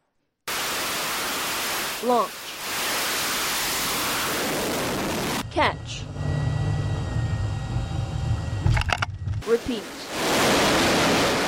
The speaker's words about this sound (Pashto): دا په بحیره روم کې د لنګر انداز یو ایس ایس جارج ایچ ډبلیو بش په نوم د امریکای سمندري جنگي بیړۍ نه د پرواز کوونکو بمبار جهازونو غوږونه وو.